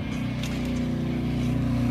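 Rumbling engine of a Harley-style motorcycle riding up to a ramp: a steady, low, throbbing drone that holds an even loudness from start to finish.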